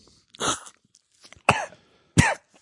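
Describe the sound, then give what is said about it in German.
Three sharp coughs after someone swallowed the wrong way, evenly spaced and fairly loud, each a short rough burst with no talk between them. “Sorry, ich habe mich verschluckt.”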